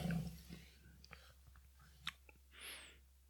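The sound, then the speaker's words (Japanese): Chewing on homemade chicken jerky dried in a convection oven: quiet, moist mouth sounds with small crunchy clicks and a soft breath, close and intimate. “今、私チキンジャーキー食べてるんですけど、はい。コンベクションオーブンのね”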